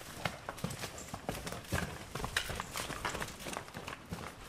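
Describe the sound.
Hooves of a very large, heavy cow of about 900 kilos thud and scuff on the ground as she walks out slowly, faint irregular steps over a steady noisy background.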